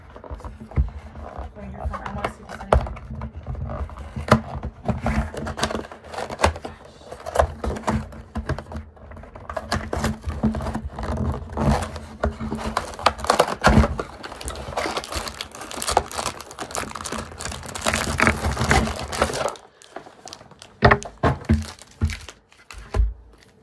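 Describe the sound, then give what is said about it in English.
Plastic wrappers on packs of trading cards crinkle and tear as the packs are opened: a steady stream of crisp, irregular rustling and crackling bursts with a short lull near the end. “I'm gonna open these cards though right now”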